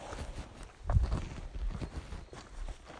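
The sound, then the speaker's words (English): Footsteps of someone walking uphill on Lofty, a few soft, irregular steps with the firmest tread around the middle, set against a low, steady outdoor background. “I'm walking up on Lofty.”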